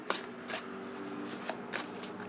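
Tarot cards shuffled by hand: several quick, crisp riffling bursts at an uneven rhythm, moderately quiet with soft rustling between them.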